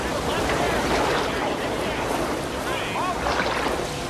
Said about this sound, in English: The river is wide, frothy, and fast flowing. Grinning, the group paddle their way through the rapids.